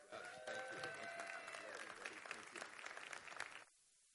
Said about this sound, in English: I'd like to just give a warm Abbot Loop welcome to Pastor Mark Drake.